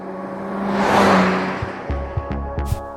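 A car driving off: engine and road noise swell to a broad roar and then ease away, followed by a few short, sharp knocks, with no talk.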